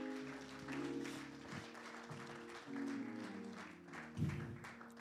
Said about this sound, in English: Won't you give God a hand of praise as you make your way to your seat?